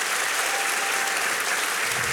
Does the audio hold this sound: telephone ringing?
no